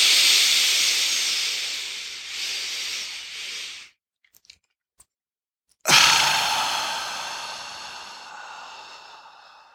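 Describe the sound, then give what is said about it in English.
Long breathy exhales during a breathing exercise, with the belly drawn in. A soft, airy hiss runs steadily, breaks off into near silence, then returns as a second strong exhale that slowly fades. No talking. “On the exhale, pulling the belly in.”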